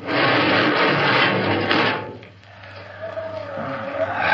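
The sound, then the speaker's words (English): An airlock door opening on a spaceship in a radio drama: a loud, rushing hiss for about two seconds that drops away, then a low rumble under a thin, rising whine. “Open the airlock.”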